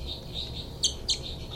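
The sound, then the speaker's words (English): Two short, high bird chirps sound in quick succession. Both are faint above a steady background hiss. “Both birds.”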